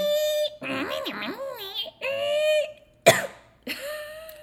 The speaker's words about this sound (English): she's struggling now. I just choked. Hold on.